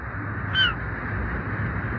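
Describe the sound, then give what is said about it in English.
A single short seagull cry slides downward in pitch over a low, steady background rumble. No other calls follow. “Those seagulls. Yeah, they're the tough ones. Never leave in winter.”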